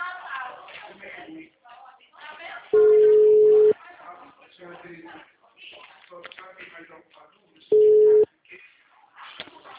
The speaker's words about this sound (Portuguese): Oi, a ligação caiu